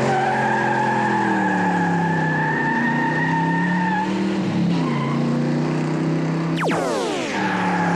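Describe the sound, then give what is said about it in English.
Car tires squeal loudly and steadily over a droning engine as the car shifts into second gear. The pitch wavers throughout, and an abrupt, sharp change comes near the end. “Way to catch second gear”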